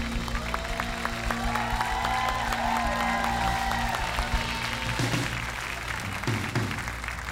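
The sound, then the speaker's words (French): A church audience claps in an ovation at a morning service celebrating the resurrection. The applause is steady and sustained over a low held tone, with a few faint voices mixed in. “Allez, ovationner la résurrection avec moi ce matin. Est-ce que je peux entendre une ovation montée vers Dieu?”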